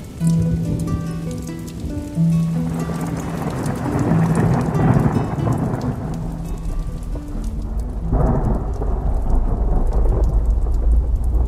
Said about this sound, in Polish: Bezpiecznie jest, są specjalne piorunochrony. Ale burza nam się rozpętała.